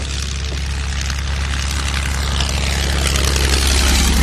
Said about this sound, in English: The sound of the tanks has been concealed by low-flying aircraft, another great technological innovation of war.